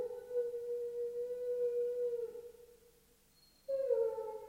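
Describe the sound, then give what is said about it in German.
A dog howls on a humid day: a long, sustained tonal howl that dips slightly in pitch and fades, then after a brief silence a second howl starts abruptly at a higher pitch. “Warum nur heult der Hund?”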